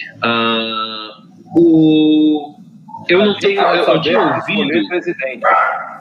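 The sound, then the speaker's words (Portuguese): A pet dog vocalizes loudly: two drawn-out, tonal howl-like barks, then a longer stretch of varied yips and whines. “desculpa o meu cachorro”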